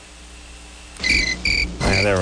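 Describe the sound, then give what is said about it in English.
Crickets chirping at 2 a.m. on a Virginia night, heard through a phone held out: two steady, high-pitched chirp bursts, then a voice speaks over the continuing chirps. “Virginia crickets, 2 o'clock in the morning.”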